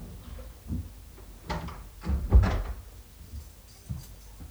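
A door being opened, heard as a few soft knocks and thumps with the loudest bump near the middle, alone without talk.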